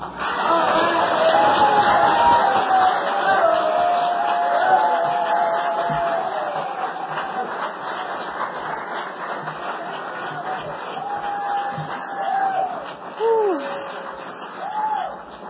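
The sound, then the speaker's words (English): A crowd cheers and applauds in welcome, with loud clapping and high whistles and whoops at first, easing somewhat before a fresh burst of whoops near the end. “grab your jaws, and give Winnie a welcome from Oklahoma.”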